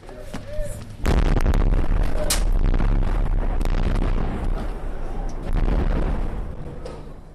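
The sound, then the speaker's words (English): Bombs exploding in Homs, Syria, falling one after another. Heavy, loud booms crash in with deep rumbling that lingers between blasts, and a few sharper cracks punctuate the continuous roar. “by mid-morning in this part of Homs, the bombs were falling steadily, about a minute apart.”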